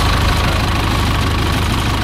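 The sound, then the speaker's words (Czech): An older Zetor tractor engine runs while towing an aircraft, a loud, steady low throbbing chug with a knocking rhythm that holds unchanged throughout. “Poslední desítky metrů obstarává postarší traktor Zetor, který Albatrose odtáhne do areálu Leteckého muzea ve Kbelích na jeho nové místo.”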